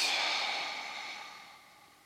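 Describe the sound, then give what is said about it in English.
A deep breath taken in a relaxation exercise, heard as one steady, airy rush of breath that slowly fades. “let's all take a deep breath in and out.”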